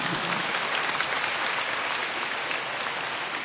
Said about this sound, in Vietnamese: Thế thì cả cộng đoàn phải vỗ tay chúc mừng chúng con đã.